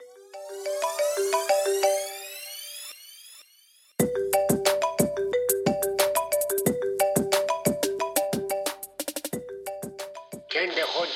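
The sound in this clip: An electronic ringtone sounds for an incoming call to a radio call-in show: a few seconds of sweeping tones, then a loud, quick, rhythmic pattern of bright melodic beeps.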